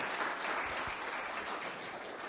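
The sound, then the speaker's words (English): Audience applause after a talk: steady, evenly textured clapping from a crowd, fairly faint and continuous for about two seconds with no voices over it. “let's give Dave a round of applause, because he was channeling his female side on that last bit”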